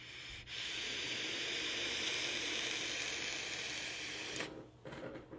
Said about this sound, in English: Yeah, definitely need a new coil head in that. The flavor is way off. I'm vaping the very last of my luck, Lady Luck from Cloud Patrol.